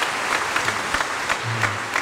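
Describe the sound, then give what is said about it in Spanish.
Church audience applauding a child just after her baptism, a steady, even wash of many hands clapping that continues throughout the two seconds. “Brindémosle fuertes aplausos a Kimberly. Felicidades.”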